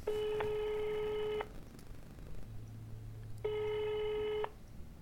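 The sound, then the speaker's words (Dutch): Telephone ringback tone as a call is placed and rings out: two long, steady, buzzing tones, each about a second long, separated by a pause of roughly two seconds, with no voices. “Misschien moeten we de directeur van het Literatuurmuseum gewoon even bellen.”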